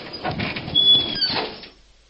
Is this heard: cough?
no